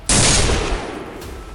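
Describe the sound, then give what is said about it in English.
Gunshot from a gun loaded with salt, fired into a wall of slugs in a narrow passage. A single sharp, loud blast hits at once and trails off into a long, noisy decay. “aimed at the dead center of it and pulled the trigger”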